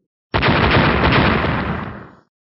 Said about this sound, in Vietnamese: 3 tiếng nổ lớn, huyết tinh lập tức nổ tung ra.